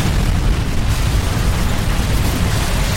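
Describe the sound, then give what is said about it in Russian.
A powerful explosion as a crashed airliner strikes the ground: a dense, roaring rumble that stays loud and unbroken for about three seconds. “произошло касание воздушного судна о поверхность земли, а далее удар и мощный взрыв”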